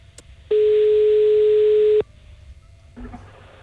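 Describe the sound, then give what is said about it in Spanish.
A single steady telephone tone, loud and flat in pitch, holds for about a second and a half while a call is being placed. Faint background noise comes before and after it, with a brief low sound near the end. “Cuidado, que estamos llamando a Pablo.”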